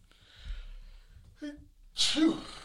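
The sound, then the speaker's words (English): A single loud, breathy sneeze bursts out near the end, after a stretch of quiet vocal sounds. “sorry, I had to sneeze.”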